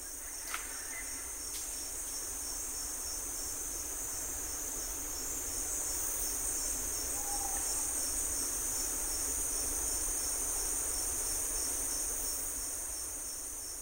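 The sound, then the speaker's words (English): Dense insect chorus, mostly crickets, in a Panamanian forest, slowed down so its ultrasonic calls become audible: a steady, unbroken wash of high buzzing and trilling with a few brief faint chirps on top. “This is a forest in Panama.”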